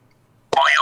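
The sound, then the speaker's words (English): A springy door-stopper boing rings out once after a moment of silence, with a bright, wobbling twang that warbles up and down in pitch as it vibrates. “Who doesn't laugh when you kick the little door stopper that makes that boy yo yo yoing noise?”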